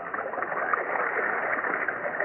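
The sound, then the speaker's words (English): Water pours through irrigation channels across dry farmland, a steady, even wash of rushing flow that stays at one level without pause. “Look at the water pouring across our dry land”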